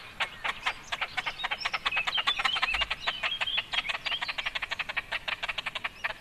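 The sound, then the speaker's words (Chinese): Calls of a large bird species: a long, rapid train of short, evenly pulsed, raspy notes, steady in rhythm and moderately loud throughout, with no voices. “感觉这种比较大型的鸟，毛茸茸的这个雏鸟的叫声都蛮接近的、哦。 是啊，那我们来听听它的其他叫声。”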